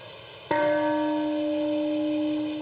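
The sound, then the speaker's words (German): A peace bell rings at the Hiroshima atomic bombing memorial ceremony. It gives a single loud strike, then a deep, steady tone with layered overtones that hums on and slowly fades. “Um 8.15 Uhr, dem Zeitpunkt des Angriffs, wurde die Friedensglocke geläutet und eine Schweigeminute abgehalten.”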